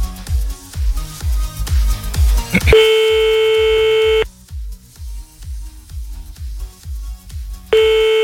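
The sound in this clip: Telephone tone while redialing during a prank call: a long, steady, bright tone sounds for over a second, cuts off, then returns at the end, all over a thumping rhythmic music bed.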